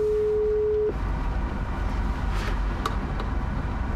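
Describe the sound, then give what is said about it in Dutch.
A phone call's ringback tone sounds once as a steady, low, even hum lasting just under a second, then cuts off, leaving faint background hiss. “We gaan er eens even bellen.”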